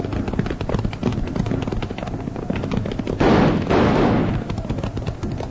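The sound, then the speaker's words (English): Gunfire crackles through an old-time radio western drama, a steady stream of rapid shots with a louder, denser burst of fire in the middle. “Hold your fire, Jingles. We can't hit them from here.”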